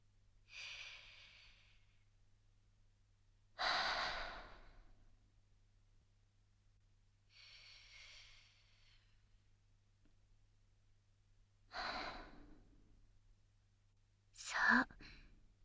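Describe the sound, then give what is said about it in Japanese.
Slow, deep breathing in and out as a relaxation exercise, with a few soft, airy breaths spaced several seconds apart, some fuller and some lighter, all faint against near silence. “まずはゆっくりと深呼吸。吸って、吐いて、ゆっくり深く。”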